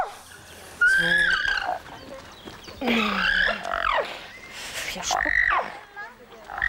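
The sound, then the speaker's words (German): A stallion squeals and whinnies loudly in protest while his mares are treated with an anti-parasite lotion. A few shrill, wavering calls rise and break off over restless background noise. “Es hört sich jetzt hier alles nur so schlimm an, weil der Hengst natürlich laut protestiert, was wir hier mit seinen Stuten machen.”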